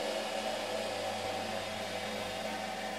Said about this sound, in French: Ouais, on a parti sur la machine qui monte et qui descend pour répartir le fil sur la hauteur de la bobine.